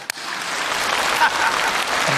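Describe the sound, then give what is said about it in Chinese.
An audience applauds with dense, steady clapping that holds at an even level for about two seconds. “给他鼓掌的都是年轻人，是吧？”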